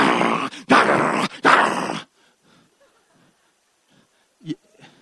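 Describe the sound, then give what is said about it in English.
A person imitates the growl of a rabid Rottweiler foaming at the mouth, making three loud, harsh, rasping bursts in quick succession, followed by near silence with a faint short noise. “if there would be a Rottweiler coming in that door with rabies and he's got foam all over his mouth and he's crumbing and he's growling, this,”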